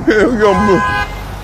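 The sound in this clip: A car horn gives a short, sustained honk from a driver on the street sounding at the car ahead, overlapping a person's voice.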